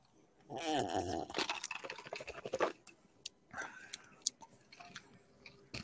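Chewing while tasting a sweet peanut butter food, with many soft, wet mouth sounds and smacks that come in irregular bursts and fade to faint.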